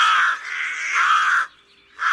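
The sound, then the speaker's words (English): Rooks, large black-feathered birds that live in big flocks and raid crops in Germany, give harsh, raspy caws: a long call with a short dip in the middle, a brief silence, then another caw starting. “Rooks. Large, black-feathered birds with a wingspan of up to a metre that live in large flocks, known collectively as a parliament.”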